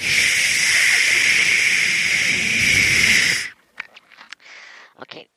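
A big, deep breath in and out makes a loud, breathy hiss that holds steadily for about three and a half seconds, then cuts off sharply and gives way to a few brief, faint sounds.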